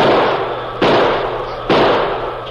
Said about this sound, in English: Desperately, he pulled the heavy six-gun from under his mackinaw and began firing.